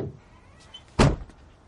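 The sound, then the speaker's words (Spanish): A car trunk being shut, a single solid thunk that stands out as one short, loud slam against a quiet background. “Cierra el maletero y camina hacia la casa.”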